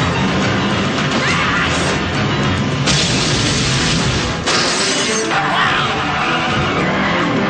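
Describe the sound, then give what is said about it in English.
Explosions and crashing from an action film rumble and shatter in a loud, dense, continuous roar, with a few sharper bursts breaking through the steady din. “Listen to all those explosions.”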